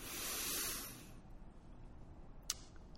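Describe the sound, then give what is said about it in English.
A big deep breath drawn in during a guided breathing exercise: a soft, airy rush of breath swells for about a second, then fades into quiet. “Let's take in a big breath together.”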